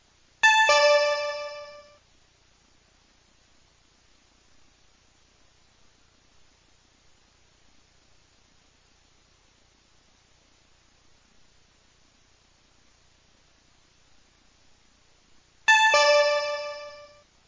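Two bright electronic chimes sound for a city council vote, one at the start and one near the end, each a short ringing tone of about a second and a half, separated by a long near-silent gap.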